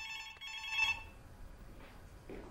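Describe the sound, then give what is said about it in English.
Telephone ringing with a faint, bright electronic ring lasting about a second, then fading into quiet low background noise with no voices. “He ignores the phone.”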